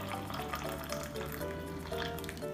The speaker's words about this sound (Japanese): まずは湯飲みにお湯を注いでですね